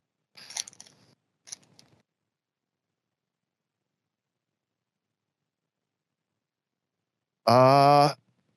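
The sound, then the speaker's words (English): Opening a sealed pack of 1972 Topps poster trading cards: a few brief papery crinkles of the wrapper, a long silent pause, then one loud sustained tearing sound lasting under a second. “I had not opened this pack. I saved it. Oh, I saved the box loader. So we'll open this right now.”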